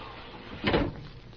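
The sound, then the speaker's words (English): A window is pulled shut with a single short, muffled bump and slide, quiet against a faint background hiss. “The window's open. Do you mind if I close it? Why don't you?”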